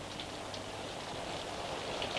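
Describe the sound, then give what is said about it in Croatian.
Steady rain pours over a valley under a heavy white cloud: an even, dense hiss with fine patter, holding at a constant level throughout, with no voices. “a šum kiše nepregledan i velik kao svijet preliva se kotlinom”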